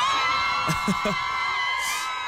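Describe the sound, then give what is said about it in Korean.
A studio audience screams and whoops with excited cheers, short rising shouts over a steady musical tone, with one more burst of shrieking near the end. “좀 작은 것 같은데요? 한번 더 소리 질러!”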